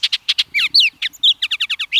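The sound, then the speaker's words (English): Song of a Baltimore or Bullock's oriole, a loud run of many clear whistled and chirped notes in quick succession, some rising and some falling, with no other sounds. “And Bullock's Orioles in the west. These vividly colored birds return each spring from Central America, and the glint of their orange feathers reminds us of the tropics.”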